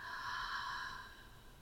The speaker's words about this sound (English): And then exhale out.